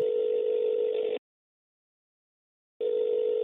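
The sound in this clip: Ringback tone of an outgoing telephone call: two steady, buzzing tones of equal pitch separated by a silent pause, loud and with no voices.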